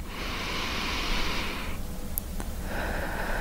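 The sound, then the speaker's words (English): A slow, deep breath drawn in as a long, airy rush, then after a brief pause the start of a breath let out. Both are soft, broad and breathy, with no talk. “Just take a deep breath.”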